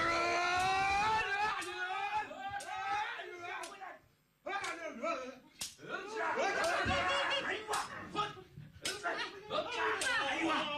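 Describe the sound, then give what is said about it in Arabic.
Shouting voices mix with sharp, repeated clashing strikes of swords in a staged fight meant to frighten others away. The hits come irregularly over the yelling, with a brief lull partway through. “لك انا عشو صريخ وضرب سيوف؟ ايه شلون بدك ياهم يهربوا اذا ما خوفتهم؟”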